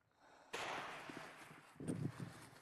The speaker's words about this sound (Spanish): Están disparando. ¿Qué pasa? ¿Por qué los muchachos están disparando? No deberían estar disparando.